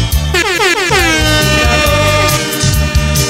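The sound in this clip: A truck air horn blares loudly and without a break for over three seconds. Its bright, brassy tone is rich in harmonics and wavers in pitch, with a low pulsing sound underneath.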